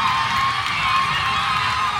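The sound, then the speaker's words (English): Fans and steel band players cheer after their band wins Panorama for the third year in a row. A dense, steady roar of crowd noise holds at one loud level for the whole two seconds. “And that is the sound of an ecstatic steel band winning Panorama for the third year in a row.”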